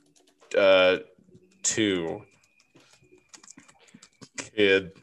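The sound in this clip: Typing on a computer keyboard: light, scattered key clicks fill the gaps between a few short voiced bursts.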